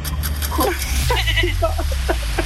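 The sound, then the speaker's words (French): Goats bleat in a few short, wavering cries over a steady low background drone. “Non, c'est les chèvres. Non, dommage. C'était les chèvres.”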